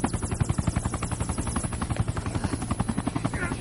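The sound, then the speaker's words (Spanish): A helicopter sits on a building's rooftop helipad, its rotor blades beating in a rapid, steady thumping rhythm under a constant engine whine. The sound is loud, continuous and heard alone. “En el helipuerto del edificio hay un helicóptero.”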